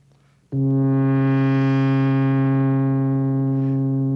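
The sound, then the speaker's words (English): A synthesizer note starts sharply with its low-pass filter opened and closed by an envelope generator, brightening quickly to a buzzy peak and then slowly mellowing as the upper overtones fade over a steady pitch. “That opening and closing of the filter was done not by me, but by the envelope generator.”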